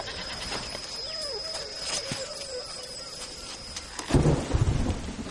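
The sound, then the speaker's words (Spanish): Torrential rain falls at night on native village huts where men lie in hammocks. A steady, dense hiss runs throughout, and a loud burst of thunder rumbles near the end. “Por la noche los hombres están tumbados en hamacas mientras cae una torrencial lluvia.”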